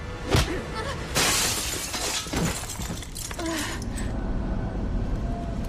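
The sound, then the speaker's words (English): Glass shatters loudly as a body is smashed through a glass table, with a sharp crash followed by a few more breaking bursts and a lingering wash of noise. “Eldridge smacks Alice through a table.”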